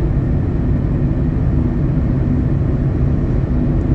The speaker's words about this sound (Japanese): 私は今運転中でございます